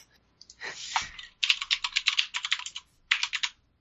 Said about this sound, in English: I think you heard that it's a mechanical keyboard. Yes. Cherry blue, maybe?